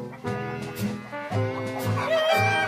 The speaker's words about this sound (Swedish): Hönorna kacklade och sneglade på korna.